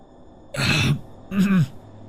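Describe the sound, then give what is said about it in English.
Two rasping throat clears from a feverish, hoarse man, separated by a short pause, the second slightly longer and alone without talk. “I cleared my throat and whispered hoarsely at her.”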